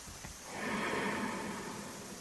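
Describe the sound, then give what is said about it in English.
A deep inhale during a guided breathing exercise: a soft, airy hiss that swells after about half a second and holds steady, breathy and fairly quiet, to the end. “Inhale deeply.”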